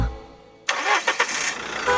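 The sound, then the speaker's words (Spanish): A car engine starts: a sudden cranking burst breaks a near-silent moment, followed by a few quick sputters before the motor catches and settles into a steady running hum. “¿Qué es? El auto se escuchó.”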